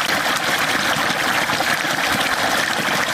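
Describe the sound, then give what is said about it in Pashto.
Water pumped up from underground by machine to irrigate fields in Kandahar's Dand district, heard as a steady, loud, continuous rushing gush of flowing water with no pauses or voices. “د کښتونو لپاره دا اوبه د ځمکې له تل څخه راایستل کیږي.”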